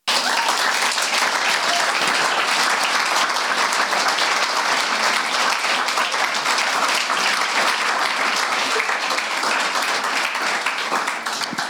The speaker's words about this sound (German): Gib den Herrn Applaus.